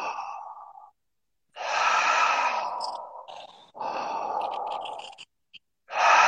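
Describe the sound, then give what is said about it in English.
Deep breathing during a breathwork exercise: several long, full, airy breaths, each drawn or released audibly and separated by short silent pauses, sighing in texture and fairly loud. “All the way in. Let it go. Wonderful. Let's do five more breaths.”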